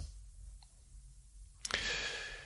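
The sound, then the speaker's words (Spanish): Mouse clicks used to like a video: a faint tick comes first, then a few sharp clicks in quick succession, followed by a steady soft hiss. “Le voy a dar un like a mi propio vídeo.”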